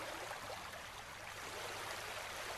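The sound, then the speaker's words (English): Water in a muddy natural hot spring gives a steady, faint rushing and trickling wash, even and unbroken throughout with no distinct splashes or voices. “The guide instructs you to wade into the water, swimming closer toward the tree, to experience the natural hot spring.”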